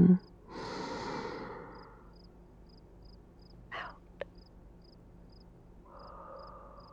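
Slow breathing during a panic-attack breathing exercise: a long drawn breath, a short sharp exhale, and a softer breath near the end, with faint regular beeping in the background.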